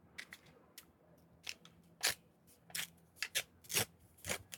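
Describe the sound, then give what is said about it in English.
A paper envelope is torn open: crisp crinkling and ripping rustles in irregular bursts, some sharper than others, fairly faint with no talking. “Just open the famous envelope here”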